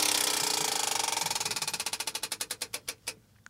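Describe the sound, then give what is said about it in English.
A prize wheel spins, its pointer clattering in rapid clicks that steadily slow into widely spaced ticks before the wheel comes to rest. “Once you give that wheel a spin there, see how we're ending the show.”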